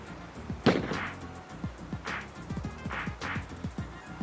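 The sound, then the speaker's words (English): Gunshots and running in a music video scene set in a trashed neighborhood: one loud, sharp bang early on, then repeated short hits and thuds over a steady, rhythmic backdrop. “And then people running and gunshots. I think somebody just got shot.”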